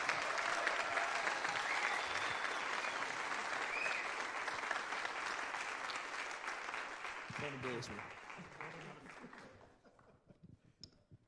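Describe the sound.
Applause from an audience welcoming a preacher, a pastor coming up to speak. Dense, sustained clapping holds steady for several seconds, then thins out and dies away near the end, with voices briefly heard under it.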